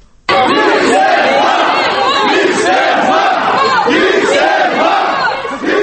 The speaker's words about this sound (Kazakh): Шерушілер сенбі күні отставка деп айқайлады.